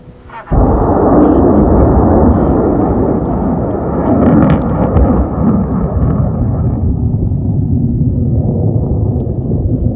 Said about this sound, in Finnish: Yön pimeydessä näkyy vain välähdyksiä ja kuuluu kumisevaa mölinää, kun 13-metrisen raketin moottori pauhaa.